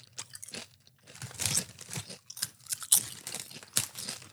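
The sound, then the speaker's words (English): Crunching and chewing on chips, a series of loud, crisp crunch bursts separated by brief quieter gaps, with no talk. “This is definitely not an excuse to eat more chips.”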